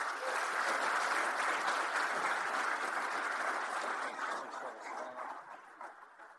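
Audience applause greets NFL executive Howie Roseman at a Philadelphia sports event, a dense, fairly faint wash of steady clapping that gradually thins toward the end.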